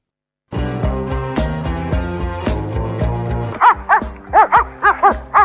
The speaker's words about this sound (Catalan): I això què és? Aquest és el gos que va mossegar el gat